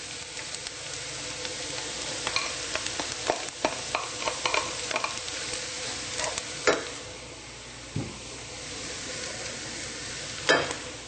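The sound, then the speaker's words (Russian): Onion sizzles steadily as it fries in a pan while being stirred, with scraping strokes and a few sharper clatters of the utensil against the pan over a constant frying hiss, and no talk. “Лук поджарился. Добавляем постный белок.”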